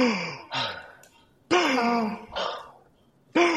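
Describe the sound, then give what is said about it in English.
A voice imitates a fish gasping for air in a low-oxygen tank, making several breathy, voiced gasps and sighs in an uneven rhythm with short pauses between them. “it's struggling to breathe”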